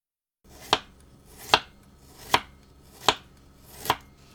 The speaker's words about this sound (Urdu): اب ادرک کو چھیل کر لمبائی میں باریک ٹکڑوں میں کاٹ لیجئے۔